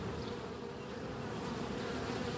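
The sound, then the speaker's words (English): Honeybees buzz in two backyard beehives on a back deck. The hum is dense and steady, holding at an even level throughout with no voices. “That's the sound of the two beehives on my back deck.”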